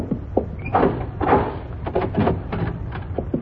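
A door being opened, heard as a series of wooden clunks, knocks and rattles of the latch and frame, moderately loud, with irregular spacing between the thuds.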